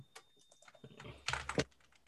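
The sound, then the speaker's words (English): Typing on a computer keyboard into a spreadsheet: a light patter of soft clicks gives way to a louder, denser burst of keystrokes near the end, with no talk over it. “And types it into the spreadsheet.”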